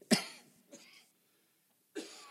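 Coughing from a person with a non-contagious bronchial illness: three harsh bursts, the first loudest and sharpest, a fainter one just after, then another following a short silence.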